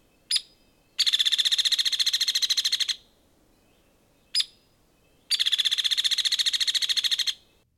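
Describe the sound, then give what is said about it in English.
Hairy woodpecker calling: twice, a sharp, high single note is followed by a rapid, even rattle of high notes lasting about two seconds, loud and clear with quiet in between. “Other than their larger size, hairy woodpeckers look like downy woodpeckers. Here's the call of the downy. And now a hairy.”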